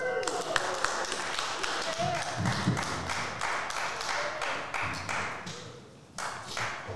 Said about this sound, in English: Please give a round of applause to Jeremy Rush.